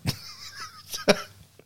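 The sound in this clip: Coughing comes in a few short, sharp bursts with a throaty, throat-clearing quality, and a voiced, tonal stretch sits between the first and second bursts.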